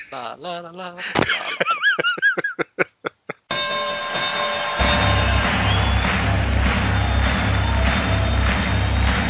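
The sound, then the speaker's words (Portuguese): Intro jingle opens with warbling chime tones and a rapid run of bell-like hits, then swells into a loud crowd cheer over sustained synth chords. “Então, vamos descobrir quem são todos os 8 participantes depois da vinheta. Roda a vinheta, Magari.”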